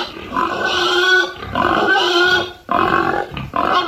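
Grunting from a young boar, dominant in its herd: four loud, harsh, tonal bursts in quick succession separated by short gaps, with no voices.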